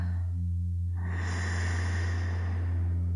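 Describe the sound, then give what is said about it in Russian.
Deep, breathy inhale during a guided breathing exercise, a soft airy rush that begins partway through and holds steadily over a continuous low humming drone. “Еще вдох”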